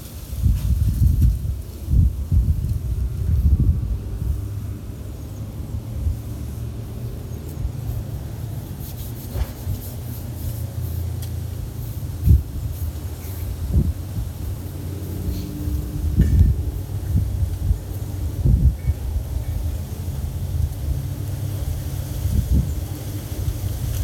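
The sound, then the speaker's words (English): Wind blows outdoors and buffets the microphone in a continuous low rumble that swells in gusts, with light rustling and no voices. “Just ignore the wind.”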